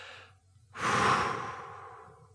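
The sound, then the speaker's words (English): A deep breath taken during a guided prayer with palms raised: one long, loud, breathy rush that starts abruptly and slowly fades away, with a softer breath just before it. “Palms up. Deep breath.”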